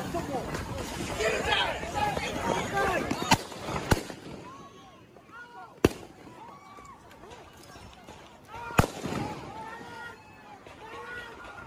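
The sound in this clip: Gunshots ring out in a street video of a shooting: a few sharp, loud bangs stand out over a restless babble of voices and the sound of people running.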